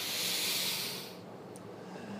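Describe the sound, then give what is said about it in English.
A deep exhale out through the mouth during a guided meditation breathing exercise: a soft, steady breathy hiss that eases off after about a second and leaves a faint airy trail. “Taking three last deep breaths in through the nose, filling your body up full, full, full, and out through the mouth.”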